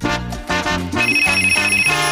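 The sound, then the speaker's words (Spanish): A telephone rings in rapid, trilling pulses over a short melodic tune, with the bright, repeated ring taking over in the second half. “Siempre tempranito, ring, ring. Óyelo sonando.”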